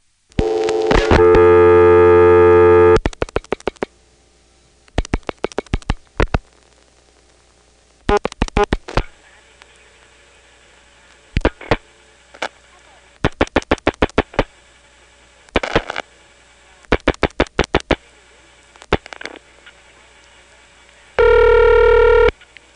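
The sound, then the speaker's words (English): Rotary telephone dialing a time-of-day number through the Manassas exchange: a steady dial tone, then several bursts of rapid pulse clicks separated by short pauses, ending with another steady line tone. “by rotary dialing 67 to drop the register sender, then dialing 5 for Manassas, 1 for 361, and the last 4 digits, 7171.”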